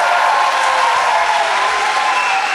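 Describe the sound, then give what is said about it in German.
Audience applause after a poem is recited, a steady, dense wash of clapping that holds at an even, loud level from start to end with no voices standing out. “Applaus”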